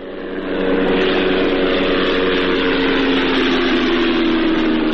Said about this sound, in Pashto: دا د هغه بې پیلوټه الوتکې غږ دی چې پر افغانستان د طالبانو له حاکمیت څخه وروسته هم د غزنی ولایت تر څنګ د پکتیا، پکتیکا او ځینو نورو ولایتونو په هوا کې ګرځي.